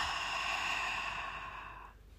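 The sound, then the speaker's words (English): A deep breath drawn as one long, breathy sigh that holds steady for about two seconds and then fades away, with no talking. “let's take a quick deep breath in and a deep breath out.”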